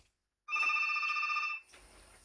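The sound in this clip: A telephone rings with an incoming call: a single electronic ring of about one second, bright and tonal, followed by faint hiss.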